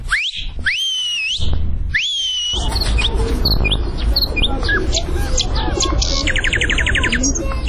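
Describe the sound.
A person whistles bird-like calls at the Kabul zoo: three similar high, sliding whistles at first, then a busy stretch of many quick chirps and a rapid trill over steady background noise.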